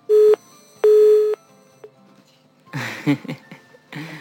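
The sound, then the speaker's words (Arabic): A telephone tone sounds after a phone call drops: two loud, steady, flat-pitched beeps, the second longer than the first, followed by a stretch of voices talking. “يبدو أننا فقدنا الاتصال.”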